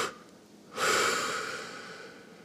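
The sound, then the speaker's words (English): A deep breath is blown out forcefully in a long, breathy rush that starts abruptly and slowly fades, heard alone and fairly soft. “we're gonna breathe in deep, and now what we're gonna do is we're gonna blow out in two pushes.”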